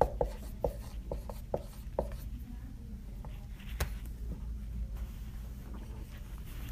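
Pen strokes as a word is written out, with a few sharp scratches and taps in quick succession at first, then softer, sparser scratching and one more distinct stroke later.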